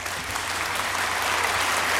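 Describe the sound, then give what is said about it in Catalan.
Applause from a group of people, a dense, steady patter of many hands clapping at even loudness throughout, with no talk over it. “Un aplaudiment.”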